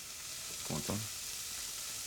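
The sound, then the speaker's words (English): Onion and garlic sizzle in a soup pot for a quick tomato soup, a steady frying hiss with a brief stirring clatter midway. “Okay, so this is going to be like the very quick little tomato soup. So onion and garlic are in this pot.”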